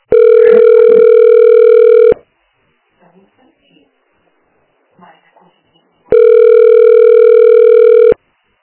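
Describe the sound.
Telephone ringback tone during a call: two loud, steady electronic tones of about two seconds each, separated by a long silent gap that holds faint, brief talk.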